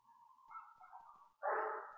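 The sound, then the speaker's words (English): Dogs barking outside: a drawn-out, whining tone gives way to a louder, harsher bark-like burst, with no talking. “Just letting the noise in the background come and go. If you can hear the dogs barking out there, I don't know.”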